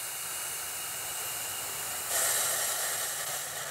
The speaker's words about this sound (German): Nun die Schaumlöscher.